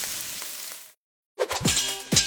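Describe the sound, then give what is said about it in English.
Spam pork sizzling as it fries: a steady bright hiss, then a short break of silence, then the sizzle returns with a few sharp crackles and pops. “Oh, hear that? That's the Spam brand singing you a love song. Spam. Sizzle, pork, and mmm.”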